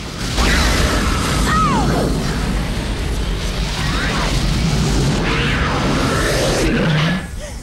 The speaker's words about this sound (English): Lava thunders towards it and fire shoots up the shaft.